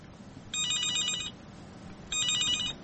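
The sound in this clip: A telephone rings with an incoming call: two electronic trilling rings, each just under a second long, separated by a short pause over faint background noise.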